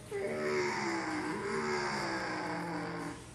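Race cars on track at Charlotte in a 500 Cup race: a loud, droning engine whine with strong harmonic tones that waver in pitch as cars roar past, tailing off slightly at the end.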